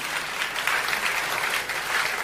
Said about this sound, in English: Can you clap your hands and bless the Lord?